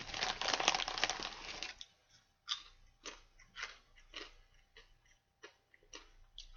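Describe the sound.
Crunching of crisps being eaten. A dense run of crunches comes first, then many separate sharp crunches follow at uneven intervals, fairly faint.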